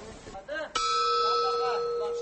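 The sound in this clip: A bell rings to end the third period of an ulak match. A voice is heard briefly before a loud, steady, ringing tone starts abruptly and holds evenly to the end.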